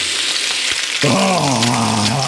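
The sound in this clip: Bacon sizzles in a frying pan, a steady bright crackling hiss that fills the whole stretch without pause.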